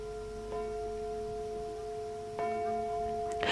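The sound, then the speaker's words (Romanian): A clock bell striking ten o'clock tolls two resonant strokes, each followed by a long, humming sustain. The tone is faint and the second stroke is slightly louder. “A sunat ora 10, e târziu.”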